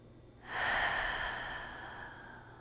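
A single slow, deep breath during a guided breathing exercise, a soft airy rush that swells quickly and then fades gradually.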